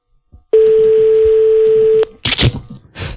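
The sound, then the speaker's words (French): Ringing tone on an outgoing telephone call: one steady, loud, even-pitched ring lasting about a second and a half, then brief noisy bursts once it stops. “Alors, ça sonne, ça c'est une bonne nouvelle déjà.”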